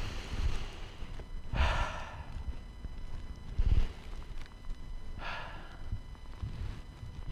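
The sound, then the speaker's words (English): Slow, deep breaths drawn during a guided EFT tapping exercise: a few soft, airy rushes of breath spaced a couple of seconds apart over a low background hum. “put your hands on your chest and take another three deep breaths”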